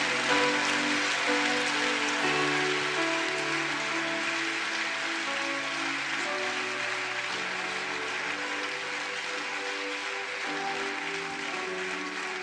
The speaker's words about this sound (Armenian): Բարձր ծափարեք Տիրոջը։